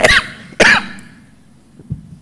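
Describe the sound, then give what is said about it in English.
Two harsh, sharp coughs in quick succession, the second slightly longer, followed by a faint low throaty sound, heard during a spoken talk. “actually, maybe you should stop that cough, stop it now.”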